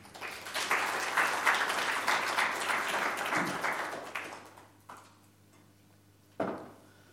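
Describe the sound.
Audience applause welcoming a speaker to an evening talk, a full burst of clapping that holds for several seconds, then thins out and fades into near quiet.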